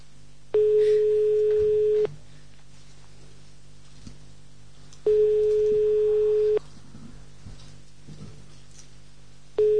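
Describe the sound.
A telephone busy tone sounds after a misdialled call with the leading zero missed: two long, loud, steady single-pitch tones separated by a quiet gap, then a third tone just beginning, with faint background noise between them.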